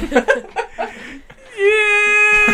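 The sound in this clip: A voice imitating someone sobbing into a pillow: choppy, broken vocal bursts, then a long, steady, high-pitched wailing tone held to the end.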